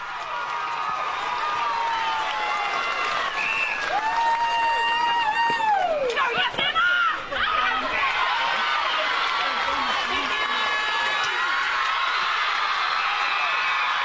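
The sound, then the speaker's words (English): Excited high-pitched screams, whoops and shouting from netball players celebrating a grand final win, loud overlapping voices that rise in bursts and keep going amid general crowd chatter. “That is the sound of the Navarre players celebrating their win”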